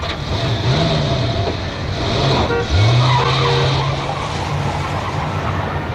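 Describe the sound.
A car engine runs and pulls away after a farewell handshake, giving a couple of rising revving notes over a steady, fairly loud road roar.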